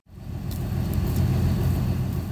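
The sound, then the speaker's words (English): Over 100 cars, trucks and trailers idle in a county fairgrounds parking lot before sunrise, giving a continuous low engine rumble that swells in quickly and holds steady. “The sun has yet to rise, and over 100 cars, trucks, and trailers sit idling in the county fairgrounds parking lot and down the neighboring street.”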